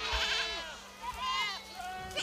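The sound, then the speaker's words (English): Goats bleating on a steep, hot hillside, part of a large herd trucked in to graze brush: a few wavering, nasal bleats with quivering pitch, fairly faint and separated by short gaps. “Yes, goats.”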